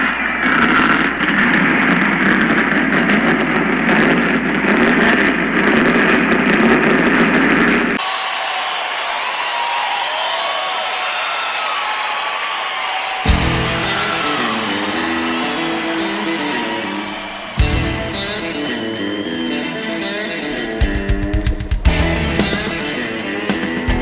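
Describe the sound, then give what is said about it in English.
Race car engines starting up at a short track auto race: a dense mechanical rumble with rough, ratcheting textures that changes in several abrupt sections, loud throughout with no voices. “The following program is a presentation of Short Track America. Gentlemen, start your engine!”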